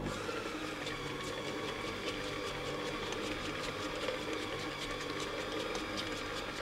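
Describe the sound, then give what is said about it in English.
An electric mixer runs on low, creaming butter and sugar, giving a steady, even mechanical whir with a fine rapid ticking texture and no pauses or changes in speed. “Okay, we're next to the mixer. I'm gonna put it in. We're gonna start it on low.”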